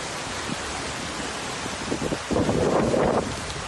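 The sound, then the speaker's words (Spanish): Water surging into a harbour during a storm, a broad, rushing roar mixed with wind noise that swells noticeably louder and fuller toward the end. “Está entrando agua en el porta. Pues este es el sonido de uno de los muchos vídeos que se han publicado en las últimas horas en las redes sociales, entre ellos este último que escuchábamos en el Ideal”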